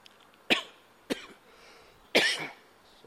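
Three sharp coughs break an otherwise quiet stretch, spaced unevenly: two short bursts close together, then a longer, heavier cough with a rough tail.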